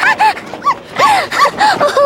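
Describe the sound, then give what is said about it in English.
A puppy barks in a run of short, high-pitched yips, each separated by a brief pause. The yips are loud and clear, with no talk over them. “I heard some barking.”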